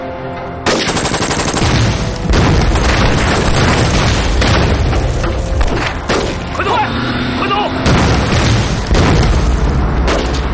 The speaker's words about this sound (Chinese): 把鬼子手雷还给他们。 扔手雷。